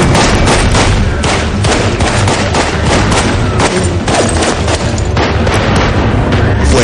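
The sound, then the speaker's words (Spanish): Rapid gunfire from a 2005 supernatural action film as a detective standing in a pool repeatedly shoots a man rising from the water, a loud, dense barrage of shots blurring into one continuous roar. “La detective se gira y le dispara repetidamente.”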